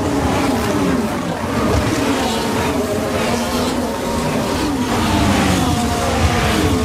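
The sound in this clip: A Formula 1 car races at the 2022 Melbourne Grand Prix, its engine a continuous high, wailing drone with shifting harmonics that stays loud throughout.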